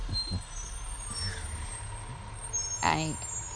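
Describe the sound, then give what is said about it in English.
A garbage truck's engine rumbles low and steady, then its air brakes let out a sharp, loud hiss with a whistling edge near the end. “How long does it take for the trash truck to go? It takes a really long time to get all of it, gather it all.”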